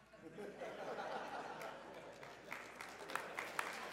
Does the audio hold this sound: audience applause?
yes